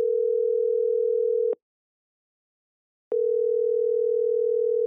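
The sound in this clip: A telephone tone sounds while a call is put through: a steady, low, pure tone that breaks off into a silent gap of about a second and a half, then resumes unchanged.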